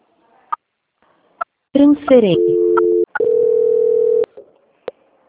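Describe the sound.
Telephone tones play while a call is transferred: a brief falling sweep, then two steady mid-pitched tones with a short gap between them, framed by a few faint clicks.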